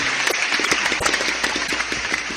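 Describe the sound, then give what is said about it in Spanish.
Audience applause at a public event in Cartagena, dense overlapping claps that fill the whole short stretch at a steady, even loudness, with no talk over them. “Un aplauso para Mónica, el año en el día de hoy. ¡Aplauso a Moni!”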